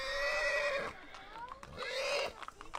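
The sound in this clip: A horse whinnies in two loud, shrill neighs, each a wavering harmonic call, with people talking around it during a horse-riding outing.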